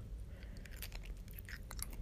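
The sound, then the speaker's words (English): Someone chews Skittles candy with many soft, irregular wet clicks and crunchy bites over a steady low hum, and nobody talks. “I'm also eating Skittles in case you're getting some undesired ASMR.”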